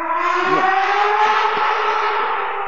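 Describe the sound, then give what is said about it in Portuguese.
Loud racing-car engines like a Formula 1 race, heard as a sustained, steady high-revving whine with a slightly wavering pitch and no pauses. “Caraca, tendo corrida de Fórmula 1 aí. Tá tendo corrida de Fórmula 1 aqui.”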